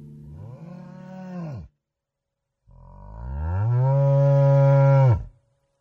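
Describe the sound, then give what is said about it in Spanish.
Deep lowing from a herd of fat steers at a slaughterhouse. Two loud, drawn-out moos are split by a silent pause, and the second is longer and stronger than the first. Both end in an abrupt cutoff. “una tropa de 50 novillos gordos entró al matadero del Alto.”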